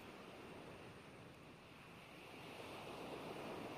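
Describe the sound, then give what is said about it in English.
Ocean waves wash in a steady, full surf with no voices, the broad roar holding even and swelling slightly louder toward the end. “let the rhythm of these waves guide you as you breathe in, opening up,”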